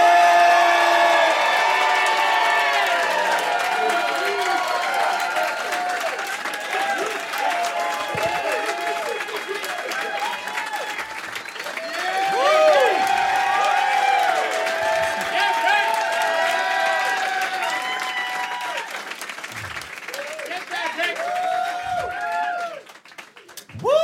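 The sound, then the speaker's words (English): An audience applauds and cheers as a comedian is welcomed to the stage at a stand-up show: sustained loud clapping with scattered whoops and shouts that holds for a long stretch, then drops away near the end. “Ladies and gentlemen, please welcome the amazing Ricky Gonzalez.”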